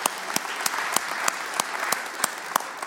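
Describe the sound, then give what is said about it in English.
Applause from a church audience honoring mothers at a Mother's Day service: a steady wash of many clapping hands, with a few sharper claps standing out at regular moments and no voices. “And why don't we give them a hand? Why don't we start out our service like that?”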